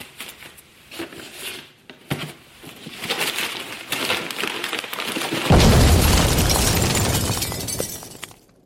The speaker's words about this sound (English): It detonated and killed him on the spot.